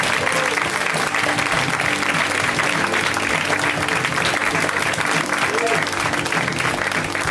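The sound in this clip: An audience claps continuously as a comedian comes on stage, a dense, even wash of applause with crowd voices mixed in, lasting the whole clip without a break.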